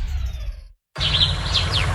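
Birds chirping and singing in spring: a few bright, high chirps and short sweeping calls over steady background noise, following a brief silence.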